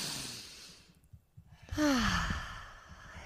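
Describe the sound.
Deep breathing during a breathing exercise: an airy inhale, a short silent hold, then a long, loud exhale that turns into a voiced sigh falling in pitch.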